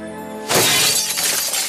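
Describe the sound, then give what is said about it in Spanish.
Glass shattering as a dragon smashes a church window: a steady tone gives way to one loud, sudden crash, and a bright spray of breaking glass rings on for over a second. “La dragona rompe el único cristal que no se ha roto.”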